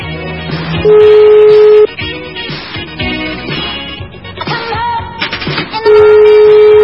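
Telephone dialing tones play over loud music: a steady tone of about one second, a briefer higher beep later, then another long steady tone near the end.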